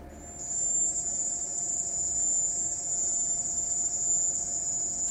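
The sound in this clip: A researchers' recreation of the mysterious sonic attack noise tied to an illness: a piercing, cricket-like high-pitched whine that starts after a brief quiet moment and then holds loud, steady and unbroken to the end.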